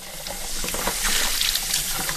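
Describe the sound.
Water runs and splashes at a kitchen sink as baby bottles are scrubbed out. It is a steady, moderate trickle with small irregular splashes throughout, and no voices.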